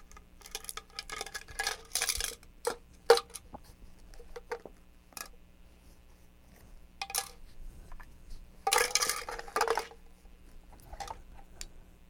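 Spoon and dishes being handled, giving a few irregular bursts of clinks, taps and clatter separated by quiet gaps, with no talking.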